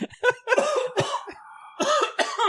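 Coughs from something caught in the throat: a few sharp, hacking bursts in quick succession, then a short pause and a final pair of throaty coughs, heard alone.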